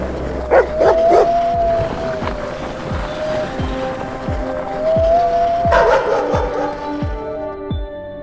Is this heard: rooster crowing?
no

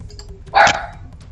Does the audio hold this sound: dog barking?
yes

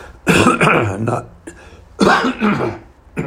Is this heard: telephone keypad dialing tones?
no

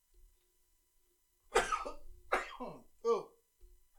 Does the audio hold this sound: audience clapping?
no

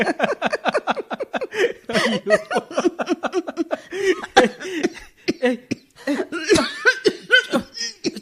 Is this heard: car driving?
no

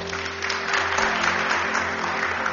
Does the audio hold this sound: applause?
yes

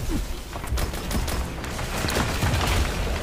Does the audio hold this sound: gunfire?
yes

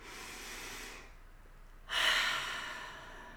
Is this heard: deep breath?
yes

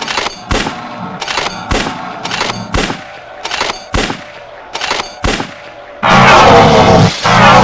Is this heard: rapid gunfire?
yes

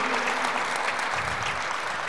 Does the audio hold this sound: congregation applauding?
yes

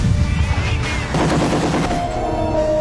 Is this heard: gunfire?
yes

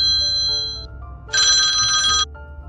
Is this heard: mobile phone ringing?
yes

